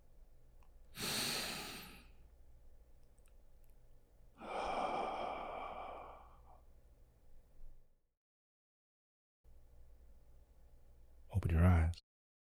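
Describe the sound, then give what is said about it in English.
A breath drawn in and then let out, heard as two soft, airy whooshes of about a second or more each over a faint low hum, with silence between and a brief louder burst near the end. “Take a breath in, then exhale.”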